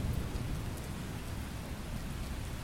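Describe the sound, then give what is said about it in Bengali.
Rain falling after a storm in the evening darkness, a steady, even hiss of drops with no distinct events, fairly faint and unbroken throughout, with no voices present. “ঝড়ের পর এলো বৃষ্টি সন্ধ্যের অন্ধকারকে সঙ্গে নিয়ে”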